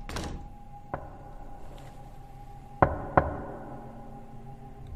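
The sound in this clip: Three knocks sound on a door, one light knock followed after a gap by a louder close pair of sharp raps, each set against a quiet, faintly humming background.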